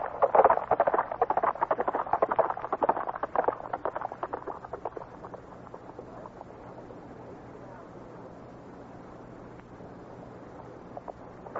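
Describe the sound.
Horse hooves clop as a rider sets off from a ranch in the Big Bend country: many quick, rhythmic hoofbeats, loud at first, then steadily fading away.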